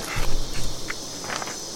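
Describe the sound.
Footsteps of a character walking through a wasteland in a video game, a few soft, uneven steps over a faint background hiss, with no talk.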